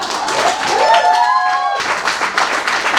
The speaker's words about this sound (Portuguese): Salve de palmas!